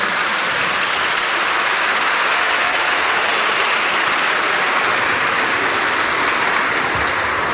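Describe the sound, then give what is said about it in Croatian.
Audience applause for women's volleyball teams at a tournament awards ceremony, a dense, steady wash of many hands clapping, so even and continuous that it resembles heavy rain, holding at the same level throughout. “Molim aplauz za sve naše odbojkašice.”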